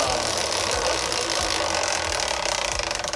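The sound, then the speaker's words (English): A big spin of a category prize wheel: rapid, continuous ratcheting clicks from the pointer sweeping over the pegs, loud and even throughout, turning into more distinct, separate ticks near the end as the wheel slows. “do you want a big spin or a little spin of the wheel here to choose the category today for the Whiz Kid Wheel”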